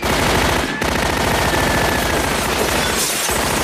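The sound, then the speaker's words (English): An old-fashioned machine gun fires in a bar, rattling in rapid, continuous bursts of loud, harsh shots. The fire breaks off for two brief pauses. “He picks up a guitar case, opens it, and takes out an old-fashioned machine gun, firing it at the approaching ball.”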